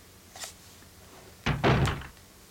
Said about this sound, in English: Right, so there's some double doors here that I'm going to go through. Going through the double doors.